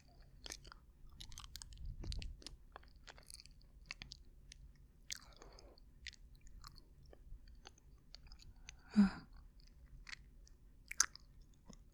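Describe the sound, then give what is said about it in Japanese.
Chewing on a single small piece of food: soft, faint, repeated crunching clicks at a loose, steady pace, with low breathy noise underneath and no speech. “噛みますね。”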